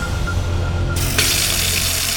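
Water runs from a tap in a steady, hissing stream that continues throughout and turns brighter and fuller partway through. No voices are heard.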